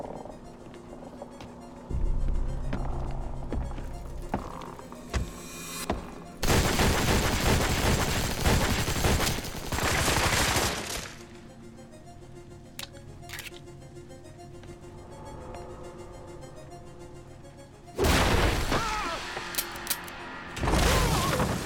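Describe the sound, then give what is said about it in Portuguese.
Gunfire in an animated cartoon: several long, loud bursts of shooting and crashing noise alternate with quieter stretches of lingering rumble and scattered clicks, with no talk. “Cuidado, você vai atirar no... Mac, eu acho que atirei.”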